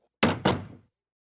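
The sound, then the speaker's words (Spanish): A door being closed produces two solid, fairly loud thuds in quick succession, about a quarter second apart, with a short fading tail after the second and nothing else around them. “¿Cierra Pedro la puerta? ¿Sí? Sí, Pedro cierra la puerta.”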